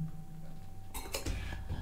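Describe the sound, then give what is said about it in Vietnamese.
Water is poured into a glass: two sharp clinks of glassware, then a soft, steady pouring sound that runs to the end, with no talk. “Rót miếng nước cho nó khô, cho nó ngọt giọng ạ.”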